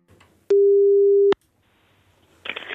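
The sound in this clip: A single loud, steady telephone line tone sounds while a call is being placed. It holds one pitch for under a second and cuts off abruptly. A short burst of noise follows near the end.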